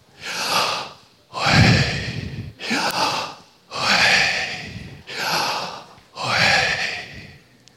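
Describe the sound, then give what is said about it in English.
Breathing in and out, six slow, full breaths in a steady rhythm, each a soft airy rush with a sighing, gasping quality, heard alone with no talk. “if you ever stop to listen to your breath”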